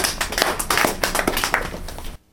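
Audience members clap together in a dense, steady patter of many hands that holds at an even level, then stops abruptly just before the end.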